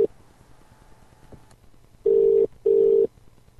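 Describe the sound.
A telephone call to a UK number rings out. A short tone is cut off at the start, then comes a quiet gap, then two steady, evenly pitched ringing bursts in a paired pattern.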